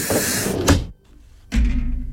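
A spaceship door opening as two loud whooshing bursts separated by a short, nearly silent gap.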